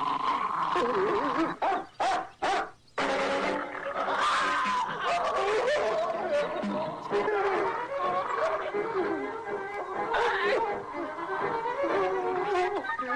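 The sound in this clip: A dog barks, yips and whimpers in an excited, near-continuous run of sharp calls and whines. A few short breaks come early on, and a person's voice is heard at times alongside the dog.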